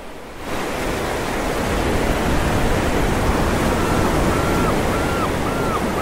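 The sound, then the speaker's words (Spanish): Sea waves breaking on the shore: a dense, hissing wash of surf that swells in quickly and then holds as a steady, full roar. “voy a la orilla del mar. Y el mar los ahoga y los manda lejos con sus grandes sonidos anchos. Lo purifica con su ruido”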